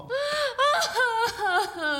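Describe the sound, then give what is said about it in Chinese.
A drunk woman cries in wavering, high-pitched sobbing wails, a few strained voiced bursts rising and falling in pitch, fairly loud and without other talk. “你哭了啊”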